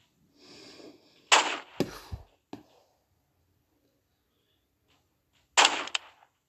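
Sniper rifle shots in a video game: a few sharp, snapping cracks, the two loudest about four seconds apart, with smaller clicks after the first and near silence between.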